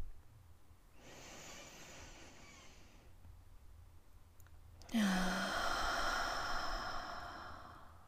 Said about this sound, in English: can we start with a deep breath in and a slow exhale out?